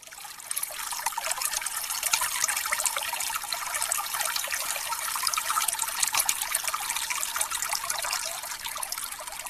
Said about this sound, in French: elle a le privilège d'abriter encore une eau de source potable et gratuite. Ici, on vient avec sa gourde ou son bidon pour recueillir une denrée rare de nos jours, une eau minérale en libre service aux vertus connues depuis l'Antiquité.